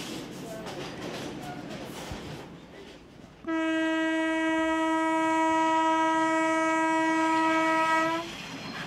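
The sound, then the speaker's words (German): A 2000 hp Alstom diesel-electric locomotive, nearly 30 years in service, rumbles along the track, then sounds a long, steady, loud horn blast of several seconds before the rolling rumble continues alone. “Die 2000 PS starke dieselelektrische Lokomotive stammt aus dem Hause Alstom. Sie verrichtet ihren Dienst seit bald 30 Jahren.”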